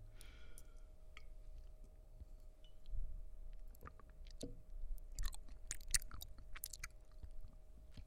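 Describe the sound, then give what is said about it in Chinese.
Quiet chewing and mouth clicks as someone eats homemade porridge, faint and intermittent with no talk. “快点张开嘴，尝尝我熬的粥好不好喝？尝一尝嘛。”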